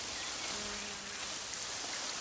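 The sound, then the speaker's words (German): Flowers in a garden are being watered, making a steady, soft, broad hiss of falling water. The sound is even throughout, with no pauses and no talk. “Nun lasst mal die Köpfe nicht hängen, ihr Blümchen. Tante Carla gießt euch jetzt erstmal ordentlich.”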